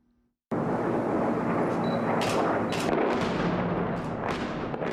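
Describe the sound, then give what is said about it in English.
Heavy rumbling and blasts from Russian airstrikes on rebel-held Aleppo: a continuous loud roar begins abruptly, with repeated sharper bursts cracking through it. “The sounds of Russian airstrikes targeting the rebel-held city of Aleppo earlier this month.”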